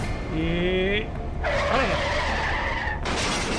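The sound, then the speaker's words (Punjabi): A car skids to a stop with a screeching tire squeal: a short whining squeal at first, then a longer, harsher skid that lasts over a second before cutting off. “ਕਾਰ ਇੱਦਾਂ ਹੀ ਰੁਕੂ, ਮੈਂ ਆਪਣਾ cycle ਕਾਰ ਅੱਗੇ ਛੱਡਦਾ।”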